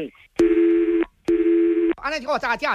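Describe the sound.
Telephone line tones play during a call transfer. Two long, steady mid-pitched beeps are separated by a short pause, and a voice then begins speaking.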